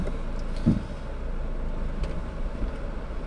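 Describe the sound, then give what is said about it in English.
Steady low rumble of a car getting under way for a short drive, with a dull bump early on and a constant engine and road drone throughout, no talk. “Okay, let's go for a little drive.”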